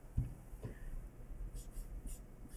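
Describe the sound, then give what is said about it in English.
Handwriting as small figures are jotted down during a probability calculation, a faint dry scratching of strokes with a few sharper ticks. The sound is quiet and steady over a low background hum. “That's going to cancel, so I'm writing it small.”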